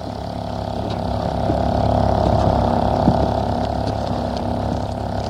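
A boat setting out from a jetty onto a lake gives a steady, low, engine-like rumble with a wash of water noise. It swells slightly in the middle and then holds level, with no voices.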